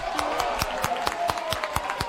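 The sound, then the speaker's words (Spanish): A teacher claps enthusiastically during a classroom quiz contest, giving a steady run of sharp, evenly spaced hand claps at a brisk rhythm, with faint background sound beneath. “¡Ay, ay, la profe! ¡Cómo aplaude!”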